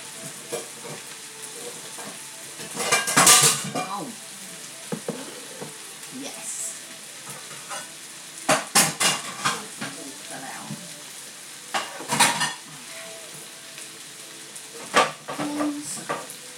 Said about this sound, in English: Now I'm just going to do the prawns.